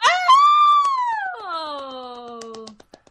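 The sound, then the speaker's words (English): A voice gives an excited, high-pitched squeal, loud and sustained at first, then dropping lower in its second half before trailing off into a few faint clicks. “That must have been super loud, that squeal that I just did.”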